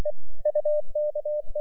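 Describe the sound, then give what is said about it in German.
Morse code beeps from a radio receiver during a snowstorm, a rapid run of short and longer steady mid-pitched tones separated by brief gaps, sounding alone and fairly loud. “Nach einer Stunde piepste es im Empfänger.”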